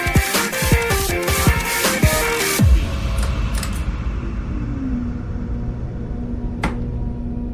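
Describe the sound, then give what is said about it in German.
A train roars past a station platform in a train simulator video game. Its loud droning tones slide down in pitch as it goes by, then settle into a low, steady rumble. “Vorsicht an der Bahnsteinkante, denn es fahren vorbeifahrende Züge vorbei.”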